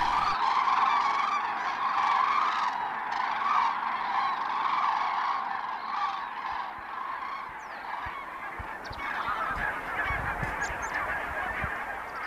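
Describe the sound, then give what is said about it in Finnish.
Barnacle geese honking at a night roost in late autumn: a dense, continuous chorus of many overlapping nasal calls that stays steady and loud throughout. “Vähitellen hanhet rauhoittuvat, mutta koko yön niiden pajatus kaikuu muutaman 100 metrin päähän pihalle.”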